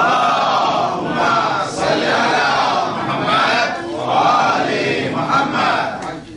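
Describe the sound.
An audience loudly recites salawat together, a dense wash of many voices rising in waves, sustained and forceful throughout with no pause.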